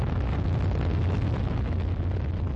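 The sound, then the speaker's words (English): Rocket engines roaring at liftoff, a continuous loud, deep rumble laced with crackling hiss that holds steady from start to finish. “Engines on. 5, 4, 3, 2, 1. Liftoff.”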